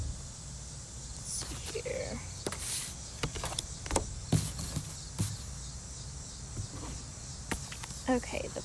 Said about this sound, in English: But there are a lot of bugs out.